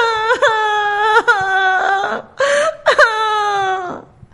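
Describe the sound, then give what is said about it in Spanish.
A small bear cub cries in a high, sobbing whimper, with a few long, wavering wails separated by short breaks. The crying is loud and heard on its own, with no talk over it. “El osito se echó a llorar.”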